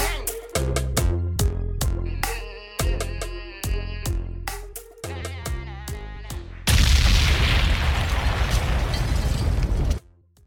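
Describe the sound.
A dancehall DJ tag sound effect: a series of punchy tonal hits and stabs, then a loud roaring explosion boom that sustains for a few seconds before cutting off abruptly.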